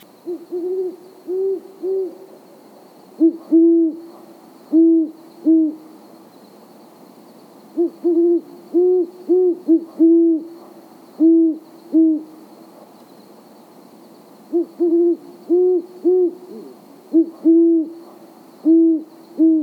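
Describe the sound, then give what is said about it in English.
A great horned owl calls in several series of deep, resonant hoots. Each series holds a few evenly spaced hoots, with short pauses between series. The calls are loud and clear, with no voices. “So here's the call of the great horned owl one more time.”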